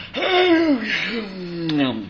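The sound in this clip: A person imitates a big yawn with the voice: a drawn-out, breathy vocal sound that slides downward in pitch over about two seconds, then swells briefly again.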